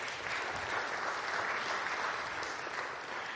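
An audience applauds the building and grounds team with steady, dense clapping that holds at an even level for the whole stretch, without voices.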